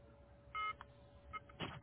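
A few short, faint electronic beeps signal an incoming call on a telephone line, thin, steady tones separated by brief gaps over a quiet line hiss.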